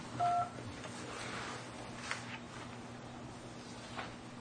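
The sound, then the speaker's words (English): A single short telephone keypad tone sounds near the start as an extension is dialed on an office phone system, followed by faint, steady line hiss. “You may dial your party's extension at any time.”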